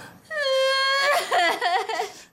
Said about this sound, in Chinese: 别哭了，别哭了！